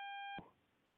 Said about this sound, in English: Uh-oh. Yep, I got a beep.